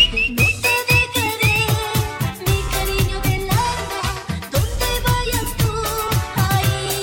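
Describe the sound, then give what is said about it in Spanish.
A person whistles a short tune over loud, beat-driven music at a discotheque. The whistling stands out most in the opening seconds. “Ahora sí, se sabe silbar.”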